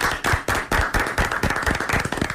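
Hand clapping in brisk, uneven bursts, a crisp run of sharp slaps that comes from only a few people rather than a large crowd.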